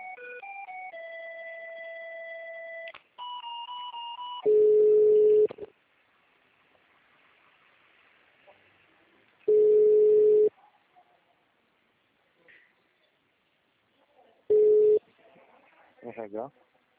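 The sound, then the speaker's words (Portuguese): Telephone tones as a call is transferred: a short run of steady electronic tones, then three loud, long, level ringing tones at regular intervals separated by quiet gaps. “Vou transferir a ligação pro Sandro.”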